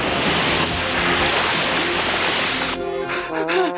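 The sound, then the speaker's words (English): Water rinses a shampooed carpet with a loud, steady rushing and spraying noise that runs for most of the moment, then cuts off abruptly near the end, giving way to quieter, thinner tones. “Shampoo the carpet. Well, at least that's done. Rinse!”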